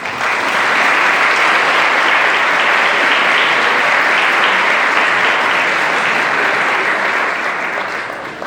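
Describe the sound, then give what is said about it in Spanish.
An audience applauds steadily and loudly, a dense, even wash of clapping that holds for several seconds before tapering slightly at the end, with no voices over it. “Recibimos con un fuerte aplauso al doctor Ley Oré.”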